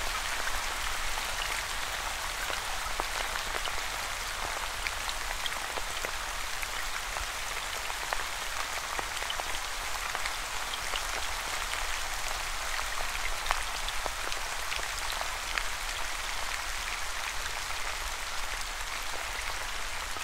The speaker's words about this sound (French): Vous pouvez choisir où cette pluie est en train de tomber.